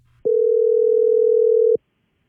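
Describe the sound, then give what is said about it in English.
Telephone dial tone heard while placing a call, a single loud, unwavering steady tone that starts abruptly, holds for about a second and a half, then cuts off into silence. “We've got Emily's number here and let's dial her up.”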